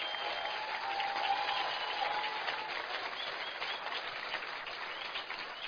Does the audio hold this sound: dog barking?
no